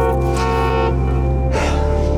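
A car horn honks as a ride arrives, one long, sustained, brassy blare that shifts tone partway through and holds to the end.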